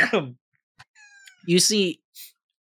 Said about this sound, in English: that's a cat. Yeah, there you go. See, now you'll meow.